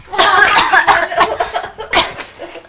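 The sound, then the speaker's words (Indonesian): Someone coughs in a few harsh, breathy bursts, a long fit at first followed by shorter separate coughs, loud and close with no talk between them. “Beneran ya batuknya ya?”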